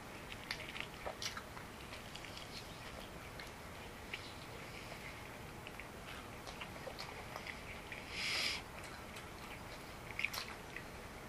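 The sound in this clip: Chewing on chicken wings: faint, crunchy bites and soft smacking ticks repeat steadily, with one brief louder burst near the end and no talk.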